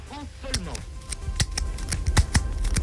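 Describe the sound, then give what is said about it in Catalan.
A four-colour Bic ballpoint pen clicks repeatedly as its colours are switched, producing many crisp, dry plastic snaps in an uneven rhythm, with a brief voice heard at the start. “Clar, aquest és el so del canvi de color d'aquest bolívic,”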